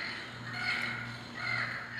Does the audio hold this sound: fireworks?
no